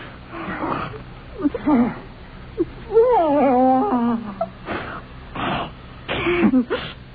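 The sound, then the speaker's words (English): A man's horrible gurgling and choking as he lies convulsing on the floor, with strained throat sounds and a wavering, groaning tone that rises and falls mid-clip before short, rough bursts. “Danny was lying on the floor, a horrible gurgling issuing from his throat, his hands beneath his chin, twitching convulsively.”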